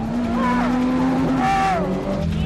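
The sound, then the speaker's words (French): A car skidding through controlled drifts, its tyres giving two high, wavering squeals over a loud, steady engine drone. “Roule droit! Non, pas les dérapages contrôlés!”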